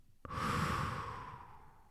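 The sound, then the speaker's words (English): A slow exhale during a box breathing exercise: one long, steady breath out begins sharply, then stays soft and airy for nearly two seconds as it gradually fades, with no talk. “Breathe in again. And hold, breathe out,”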